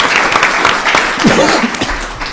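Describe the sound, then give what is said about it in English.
Audience applause for a political candidate at a Southwest Wisconsin candidate forum for the third congressional district: loud, continuous clapping that holds steady throughout. “Please give her a hand. And welcome to Southwest Wisconsin.”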